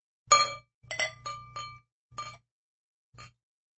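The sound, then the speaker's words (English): Bright glassy clinks and clatter as a beer is opened, a few sharp bursts in quick succession followed by a pause and one fainter final clink. “A beer. I'm going to open my Balto.”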